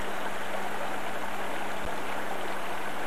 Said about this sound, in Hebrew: מפה מים נשפכים לפולן ליף לייק ומשם לטאו.